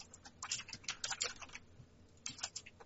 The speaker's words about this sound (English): Okay, careful on the typing.